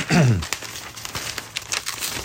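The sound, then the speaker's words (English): A page being torn out, heard as a few dry crinkling and crackling paper rips, fairly loud at first and then a scatter of fainter rustles. “I think I'm going to tear that out”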